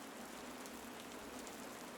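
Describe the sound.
Steady rain falls outside a village temple during a ceremony on a cold day, a continuous, even hiss of drops that holds at the same level throughout with no voices.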